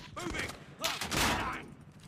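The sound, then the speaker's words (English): Gunfire in a video game, with harsh bursts of shots in a rapid fusillade; a voice is heard between the volleys. “I'm getting freaking shot at. Don't freaking... Where are they shooting us from?”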